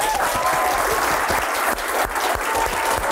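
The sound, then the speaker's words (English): Studio audience applause welcoming a late-night talk-show host: loud, dense, sustained clapping that holds steady throughout, with no single voice standing out. “Oh, I feel like I stepped on your applause.”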